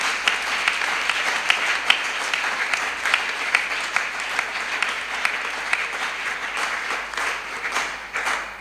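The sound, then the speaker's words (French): A church audience at a youth gathering applauds in acclaim for the Lord. The clapping is dense and continuous, holding steady through most of the stretch before tapering off at the close. “Est-ce que tu peux me donner des acclamations pour le Seigneur?”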